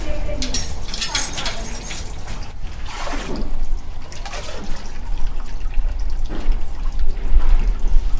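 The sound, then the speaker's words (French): Water is poured in to refill a public fountain statue, a steady splashing and rushing wash that runs the whole time with a brief voice or two mixed in. “Oui, je dois ajouter de l'eau.”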